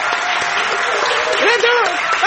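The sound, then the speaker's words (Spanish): Audience ovation welcoming a performer to the stage, loud dense clapping sustained throughout, with a voice rising over the crowd noise partway through. “Vamos a saludar inmediatamente con una hermosa ovación a Patricio Barto.”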